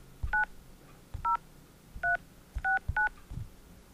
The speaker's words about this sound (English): We will call his office now and get this interview underway in earnest.